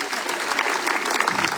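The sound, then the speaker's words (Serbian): Audience applause celebrating 35 years of a summer cultural festival in Kastav: a dense, steady roar of many hands clapping, even in loudness throughout, with no talk over it. “teh 35 let merita vaš pljesak. Čete se na pljeska večeras, ja vam govorim.”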